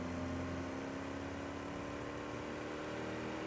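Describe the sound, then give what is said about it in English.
Roaring engines in the distance under scorching skies, a loud, steady droning hum that holds level throughout with no clear breaks or separate impacts. “In the distance, you hear the roaring of engines and the shearing of metal.”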